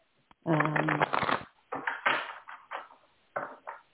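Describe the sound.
A deck of cards being shuffled during a card reading gives a few brisk, crackling bursts of riffling and flicking, separated by short pauses and fairly loud.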